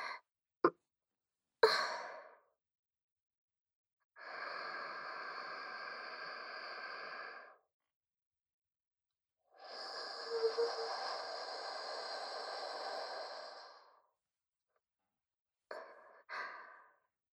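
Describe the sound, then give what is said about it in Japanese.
A person in pain breathes deeply to calm down: a few short clicks, then a slow airy inhale of about three seconds, a pause, and a longer breathy exhale that fades out. “深呼吸します。”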